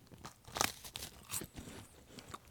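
A few crisp crunches of someone biting into a light, airy, low-sugar bonito-flavoured snack, with softer chewing between bites, all fairly quiet.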